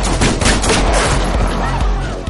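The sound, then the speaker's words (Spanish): Loud gunfire in the 2017 action film John Wick: Chapter 2, with rapid bursts of shots piling into a dense, booming fusillade that fades slightly toward the end. “Se disparan.”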